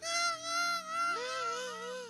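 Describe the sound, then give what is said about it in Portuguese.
An infant cries during a church baby dedication and blessing: loud, sustained wailing with a wavering pitch, rising and falling across a few long breaths with no other voices. “Babies are always crying. Bebês estão sempre a chorar.”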